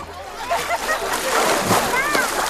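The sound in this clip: Splashing and sloshing water at a summer swimming spot such as a pool or bathing lake, with voices talking over it throughout.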